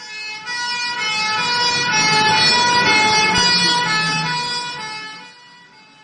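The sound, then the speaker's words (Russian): An ambulance siren wails loud and steady, rich in piercing overtones. It swells in volume, holds, then fades toward the end over a low vehicle rumble. “Приехала скорая помощь с включенной сиреной.”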